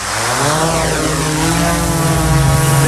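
Quadcopter drone propellers spinning up as the drone lifts off, a loud, steady buzzing whine with layered harmonic tones that holds strong through the whole stretch.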